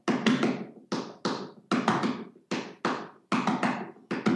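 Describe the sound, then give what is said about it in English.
Hand-tapped groups of five on a drum surface, sticking right-left-right-left-left with the left hand accented every second cycle. Many dry, sharp taps fall in a brisk, steady pulse with clearly louder strokes, and no one talks. “When you play groups of five, right, left, right, left, left, and you're, every second time you come around, you accent the left hand, and it sounds like this.”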